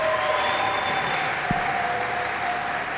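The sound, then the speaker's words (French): A church audience applauds and cheers: thick, continuous clapping from many hands, steady and fairly loud throughout. “Alors pourquoi tu acclames timidement comme ça? Est-ce qu'on peut bien acclamer notre Dieu?”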